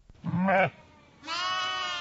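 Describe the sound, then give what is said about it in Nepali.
Sheep bleating from a flock brought down from high Himalayan pastures in Taplejung, Nepal, to escape the cold after snowfall: two bleats, a shorter lower cry followed by a longer, higher, sustained one. “हिमाली क्षेत्रमा हिमपात हुन थालेपछि ताप्लेजुङका भेडीगोठ बेसी झरेका छन् गर्मी याममा हिमाली भेगतिर लगिएका भेडीगोठलाई अहिले चिसो छल्न बेसीतिर झारिएको हो”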